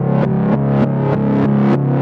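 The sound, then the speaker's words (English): A reversed synth pluck sample repeats as a quick, steady run of swelling notes, each rising out of silence to full loudness and then cutting off abruptly before the next one begins. “So this right here is a reverse sample of the pluck. So if I play that, it sounds like this.”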